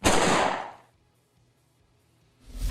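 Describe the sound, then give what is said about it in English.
A submachine gun fires on full auto during a roleplaying game: a loud, noisy burst of gunfire that decays over about a second, then near silence before another burst begins at the end. “he is going to shoot with auto fire SMG and misses”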